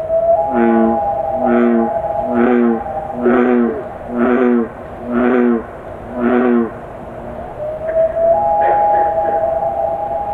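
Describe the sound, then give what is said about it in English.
Bullfrogs and loons in a wildlife field recording: a regular series of deep, resonant croaks pulses steadily while a long, pure loon tone holds beneath them, fades, then returns slightly higher near the end. “This is the sound of bullfrogs and loons, recorded by Burlington-based musician and field recordist Ren Kitts.”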